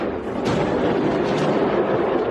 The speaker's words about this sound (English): A new video shows a fireworks factory exploding into a massive fireball in Malta.